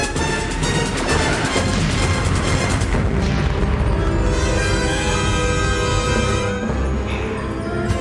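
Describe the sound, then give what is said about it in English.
Loud starship battle effects as a full spread of torpedoes is fired, with explosions. Dense, continuous booming and crashing fill the whole stretch, with tonal ringing layered on top and no break in the roar. “They've armed another full spread, sir. Fire torpedoes.”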